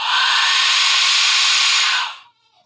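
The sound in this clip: A skull-shaped Aztec whistle gives one long, loud, harsh and breathy scream lasting about two seconds before cutting off, leaving a faint thin trailing tone.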